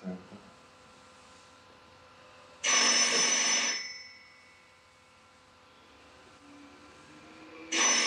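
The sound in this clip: A telephone rings in two loud, bright bursts, the first about a second long and the second starting near the end, with a quiet stretch of faint background sound between them.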